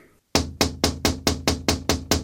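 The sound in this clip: Knocking on a door: eight firm, evenly spaced raps in a quick steady rhythm, loud and clear with no talk over them.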